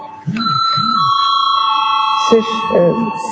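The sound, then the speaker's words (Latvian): An electric bell rings in a parliament chamber to call members to a vote, a steady bright tone lasting about two seconds. A voice speaks before and after it. “Lūdzu zvanu.”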